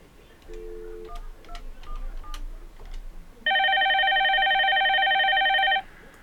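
Telephone tones during a call transfer: a short two-tone beep and a few faint blips, then a loud, steady multi-tone signal held for about two seconds before cutting off, with no talk.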